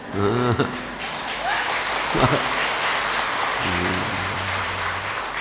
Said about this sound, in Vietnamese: Sao không vỗ tay một cái? Vỗ tay là để chứng minh mình khỏe chứ không phải là ủng hộ ông giảng sư.